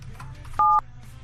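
A single telephone keypad dialing tone: one short, steady two-note electronic beep lasting about a quarter second, rising out of a low background hum and stopping cleanly.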